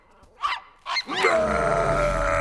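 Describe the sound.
An ogre growls at a puppy: a couple of short rough bursts lead into a long, loud, sustained rumbling growl with a steady buzzing tone.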